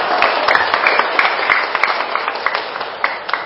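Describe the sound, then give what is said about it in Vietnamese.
Long, loud applause from a crowd at a Buddhist monastery ceremony closing a summer retreat at Tường Vân monastery, a dense, continuous clatter of hands with scattered sharper claps. “Chúng ta hãy cho một tràng vỗ tay thật lớn và thật dài ạ.”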